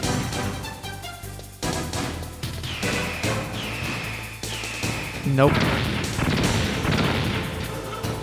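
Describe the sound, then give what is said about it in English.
Missiles explode in a video game: a few loud, crashing bursts of noise stand out against dense, continuous game sound that stays busy throughout. “I don't even know how to get away from these fucking missiles.”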